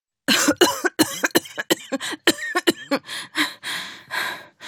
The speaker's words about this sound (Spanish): Volvió a inspirar y empezó a toser.